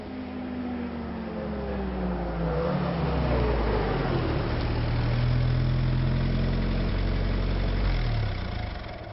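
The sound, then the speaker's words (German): A military jeep's engine idles outside with a steady low rumble for several seconds, its tone wavering slightly throughout. “Kurz darauf hörte ich draußen ein Fahrzeug.”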